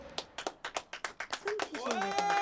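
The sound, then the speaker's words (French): Rhythmic hand clapping from people at a care-home birthday celebration for a very old woman. Sharp claps in a steady beat run through the first half, then voices join in and build into a continuous sound toward the end. “On applaudit.”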